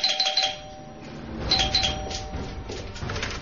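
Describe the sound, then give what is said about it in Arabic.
A doorbell rings at a house door, giving a few bright, clear chimes in short clusters over a low background rumble. “غير بعيد توقف عند باب منزل، قرع الجرس،”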